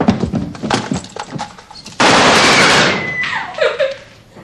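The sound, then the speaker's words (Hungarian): Gunshots being fired, heard as a rapid run of sharp, loud cracks, then a heavier burst of noise that slowly fades. “Hogy lősz, te hülye? Olyan sok a felesleges lőszerünk?”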